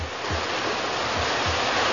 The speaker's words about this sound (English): Pumpers are ready. All the hoses coupled up. We'll flood that thing with water from all angles. All right, here's the signal. Open them up! Full blast!